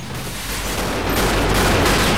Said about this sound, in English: FBI agents fire their automatics and sparks fly as the bullets ricochet.